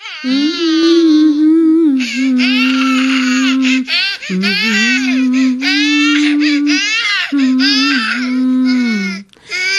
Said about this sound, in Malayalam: മോൻ കരയുന്ന കേൾക്കുന്നില്ലേ?